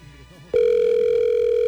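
A telephone sounds with a steady, single-pitched electronic tone. It starts abruptly after a low murmur and holds loud and unbroken for over a second.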